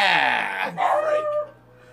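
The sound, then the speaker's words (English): A dog gives a brief whining, howl-like yelp with falling pitch, a couple of quick vocal bursts that fade into quiet. “Hey, no barking.”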